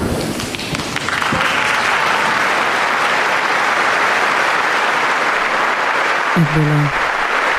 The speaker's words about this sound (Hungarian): Tapsból a kedves hallgatók rájöhettek, hogy bizony nagyon sokan vannak jelen a 6. pálteremben.